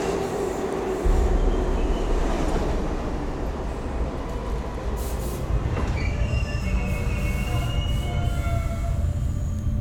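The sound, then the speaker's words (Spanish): A subway train rushes past at high speed: a loud, continuous rumbling roar with metallic squealing from the wheels and thin high screeches drifting over it. “El metro pasa a tal velocidad que no puede frenar por lo sorpresivo del acto.”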